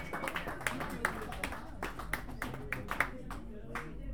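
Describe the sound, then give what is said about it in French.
An audience at a music jam applauds a performer as he is introduced, many sharp, distinct claps in an uneven rhythm, fairly quiet, with voices mixed in. “On l'applaudit très fort.”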